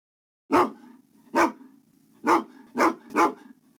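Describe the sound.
A dog barks five times in short, sharp bursts, each bark distinct and fairly loud, with brief pauses between them and the last three coming closer together.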